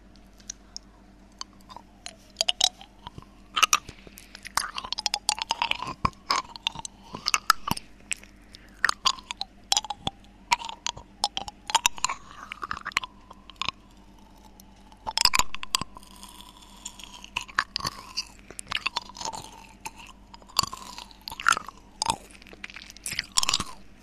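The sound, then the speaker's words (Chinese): Crunchy chewing of Mentos candies with a crisp shell and a soft inside: many irregular sharp crunches and moist mouth clicks in a steady stream, with no talk. “我们再吃一颗曼妥斯。嘿，倒不出来了。我觉得曼妥斯不是很好吃，没有糖吃了。”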